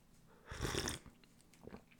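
A quick sip of homemade, unsweetened juice being tasted: a short slurping and gulping mouth sound with a soft breath, loudest in the middle and fading into quiet.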